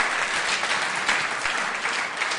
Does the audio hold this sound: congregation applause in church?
yes